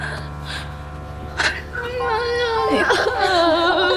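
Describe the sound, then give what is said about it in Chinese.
Young girl whimpering and crying, her high, wavering sobs rising and breaking over a low steady hum, with speech beside them. “不哭了，不哭了”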